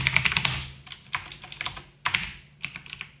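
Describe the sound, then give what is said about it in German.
Rapid typing on a computer keyboard: many irregular, crisp key clicks in short bursts separated by brief pauses, with no voices. “Ich kann nicht mal Steffen schreiben mit meinen dicken Wurstfingern.”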